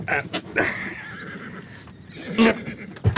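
A horse neighing while harnessed to a sulky in open country: a long, quavering whinny, followed by a couple of short, sharp bursts.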